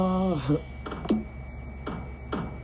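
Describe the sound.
Clicking of random buttons, a few sharp isolated clicks spaced out after a brief burst of voice at the start.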